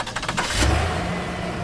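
An old German car engine, left sitting unused for a long time, starts up: a few quick rough pulses give way to a louder rumble that catches and settles into a steady run.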